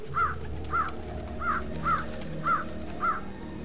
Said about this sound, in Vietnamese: có loại chim mỏ sắt không biết từ đâu bay đến, đậu trên vai chúng tôi